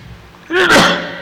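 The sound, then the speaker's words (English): A single loud sneeze from a man: a short rising intake of breath, then a sharp, noisy burst that fades quickly, heard alone with no talk. “See, just talking about it makes me sneeze.”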